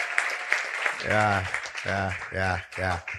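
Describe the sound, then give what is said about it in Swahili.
An audience applauds the pastors who organised a church gathering, clapping running beneath a loud, prominent speaking voice. “Naweza kupiga makofi kwa ajili yao, wamefanya kazi kubwa sana ku organize.”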